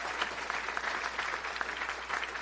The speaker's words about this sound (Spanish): Y todo le aplaudimos, va. ¡Aleluya!